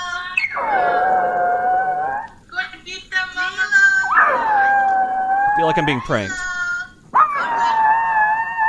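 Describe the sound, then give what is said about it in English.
A dog howls in three long, wavering, mournful howls separated by short whimpers and yips, and a voice speaks briefly. “That is the sound of a dog missing two little girls.”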